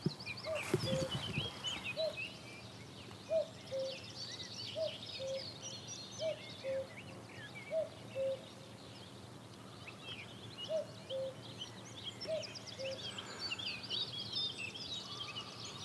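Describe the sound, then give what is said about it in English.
A cuckoo calls on farmland, its faint two-note calls repeating many times at an even pace with short gaps, while other small birds chirp faintly in the background. “Ooh, and there's a cuckoo calling.”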